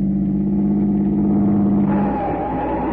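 A car engine accelerates as the car pulls out to cut in ahead of another car. The low, steady engine drone changes tone partway through, and no one speaks.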